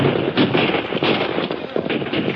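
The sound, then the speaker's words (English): A volley of rifle fire in a radio drama, a dense, continuous crackle of many rapid shots that stays loud throughout, with no separate reports. “Now they were opposite the Wells Fargo Express office, and a dozen rifles opened up on them.”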